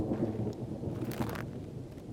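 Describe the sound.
Rain falling outside a window makes a faint, steady wash of patter over a low, continuous rumble, with no voices.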